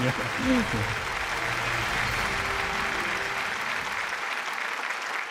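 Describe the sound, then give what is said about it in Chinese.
An audience gives warm applause to welcome a guest professor onto a talk program. The clapping is dense and steady and continues for several seconds, with a voice heard briefly near the start. “让我们用热烈的掌声有请张永乐教授。”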